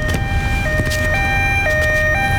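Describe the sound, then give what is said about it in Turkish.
An ambulance siren wails in a steady two-tone pattern, stepping back and forth between a higher and a lower pitch about every half second, loud and continuous over a rushing background noise. “Bu bir ambulans, bu kadar saf olma.”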